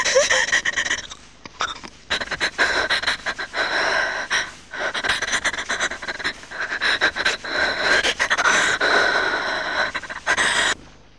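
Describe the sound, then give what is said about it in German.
A saw cuts in a radio drama scene, its rasping strokes repeating in a rough rhythm, mixed with heavy gasping and panting breaths throughout. “Gib mir die Säge. Die Säge.”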